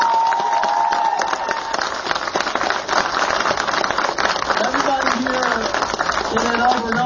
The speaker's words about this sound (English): can we first give a huge round of applause to our two incredible